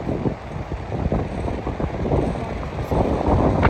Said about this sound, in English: It's a very strong wind